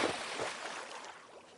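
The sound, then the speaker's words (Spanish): Water splashes as a young woman dives into a swimming pool: a quick burst of spray at the start, then a softer churn of water that fades away. “Camina hasta el borde de la piscina y clava su mirada en él. Las tira al agua. Paul las observa hundirse. La joven se zambulle.”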